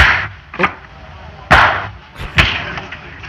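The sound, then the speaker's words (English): Crisp Foley thwacks of celery stalks striking people in a saloon brawl: a few sharp, separate hits with short gaps between them, each landing as a dull, snappy whack. “they're hitting each other with celery in a saloon here”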